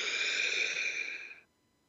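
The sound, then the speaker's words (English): A single long breath taken during a guided relaxation exercise: a soft, airy rush that holds steady for over a second, then fades away into quiet. “take a breath”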